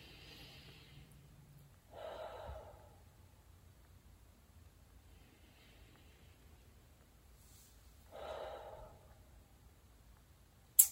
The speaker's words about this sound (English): take a couple of deep breaths in through your nose, out through your mouth, and quiet your heart and your mind. Maybe 2 more deep breaths.